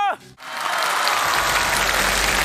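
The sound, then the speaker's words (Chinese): Audience applause at an acrobatics show. After a brief voice at the very start, dense clapping swells in and carries on loudly and steadily to the end. “谢谢掌声”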